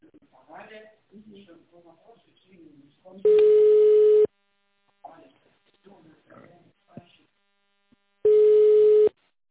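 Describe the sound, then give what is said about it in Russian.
A telephone ringback tone sounds while a call is transferred to an operator. Two long, steady, loud tones are separated by a recorded voice speaking. “Ваш звонок будет переведен на оператора.”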